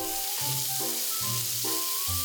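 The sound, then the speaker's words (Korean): Sizzling of asparagus stir-frying with onion and garlic in a pan, a steady, continuous hiss that carries evenly through the whole clip with no voices. “또 다른 메뉴는 아스파라거스를 양파와 마늘에 볶은 아스파라거스 볶음입니다.”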